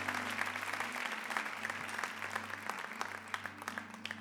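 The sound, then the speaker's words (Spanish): Applause for the praise and worship team at a church conference. Quiet, continuous clapping from many hands runs throughout, with scattered sharper claps standing out. “Un aplauso al equipo, venga.”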